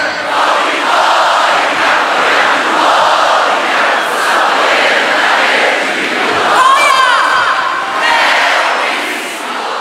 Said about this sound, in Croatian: a dočekali su ih deseci tisuća upjevanih navijača na zagrebačkom glavnom trgu.